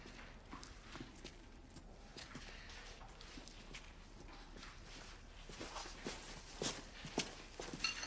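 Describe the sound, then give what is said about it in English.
Footsteps pick their way across broken crockery on a kitchen floor. Many faint, crunching and clinking steps come irregularly and grow louder and denser toward the end, with no voices. “They pick their way across broken crockery to the door to rest of the house.”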